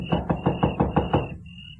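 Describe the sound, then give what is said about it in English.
Knocking on a house door at night: a quick, evenly spaced series of firm knuckle raps, then quiet, with a thin steady high tone running throughout. “It was so dark I couldn't see where the doorbell was, so I knocked.”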